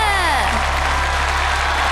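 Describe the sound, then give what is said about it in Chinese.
An audience applauds three Kuaishou creators with steady, even clapping that continues throughout, while a voice speaks briefly at the start. “谢谢西林，也谢谢三位快手创作者，我们把掌声送给他们。”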